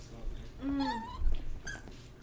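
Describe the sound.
A dog whimpers and cries in high, wavering whines. One drawn-out whine slides downward in pitch and a shorter one follows near the end, fairly faint.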